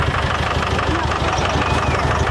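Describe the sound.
A car engine idles with a steady, low, rhythmic rumble that runs unbroken and fairly loud throughout.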